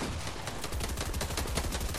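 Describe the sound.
A minigun fires in a video game, a dense, unbroken stream of sharp, clattering shots for the full two seconds, loud, with no talking.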